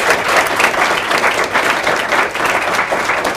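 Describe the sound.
An audience applauds to welcome two speakers at a talk, with steady, full, dense clapping that goes on without a break and no other voices over it.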